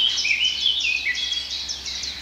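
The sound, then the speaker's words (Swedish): Eurasian blackcap singing: a continuous, high, bright warbling song of quick varied phrases that runs steadily through the whole clip. “Svartättan igen.”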